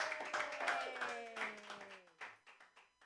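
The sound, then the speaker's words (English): Audience applause for a comedian being introduced at an open mic comedy show. Dense clapping fades and thins into a few scattered separate claps. “Put your hands together for Aaron Atkins.”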